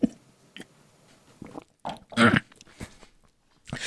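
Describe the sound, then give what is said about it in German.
A person takes a drink, making a few separate gulping, swallowing and mouth sounds at irregular intervals with short quiet gaps between them. “So, weil ich muss kurz was trinken vorher.”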